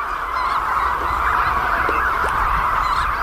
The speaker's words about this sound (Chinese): 好在，它们已经听到了亲鸟觅食归来的叫声。